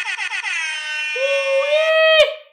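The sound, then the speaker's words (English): An air horn sound effect blares with four quick, short blasts followed by one long, loud, brassy sustained honk that cuts off sharply. “And I got to give the air horns.”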